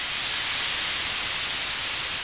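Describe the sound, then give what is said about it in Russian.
Air hisses out of an inflated balloon through an opened valve and hose. The sound is a loud, steady, unbroken rush of noise for the whole moment, with no voices. “Воздух с шипением рванулся из шара.”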